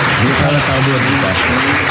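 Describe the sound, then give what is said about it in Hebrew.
Audience applause used as an inserted sound effect, a loud, dense wash of clapping held at a steady level, with voices faintly mixed in. “פה אנחנו נכניס מחיאות כפיים של קהל במקום אחר.”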